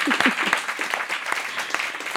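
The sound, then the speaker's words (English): A studio audience of concert club members applauds, a brief, fairly faint patter of many hands clapping at a steady rate. “And thank you, Concert Club members, our studio audience. Give it up for yourself.”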